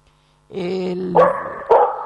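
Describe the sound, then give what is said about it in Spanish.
A small dog gives a high, drawn-out whine, then two sharp barks about half a second apart. “bueno, parece que tenés acompañante. Perrito.”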